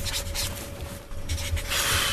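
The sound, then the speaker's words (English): A pen scribbles on paper while signing a signature, giving a continuous scratchy rubbing with one brief break partway through. “I know you're scribbling, like, are you just drawing little doodles on the page? Yeah, basically just signing my signature here.”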